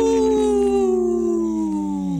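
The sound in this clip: A single wolf howl, one long, steady tone rich in harmonics that drifts slightly lower and drops away at the end.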